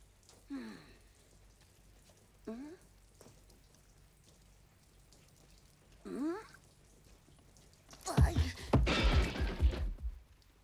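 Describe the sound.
Rain falls as a loud, dense downpour surging in near the end, after a quiet stretch broken by a few short voice-like cries.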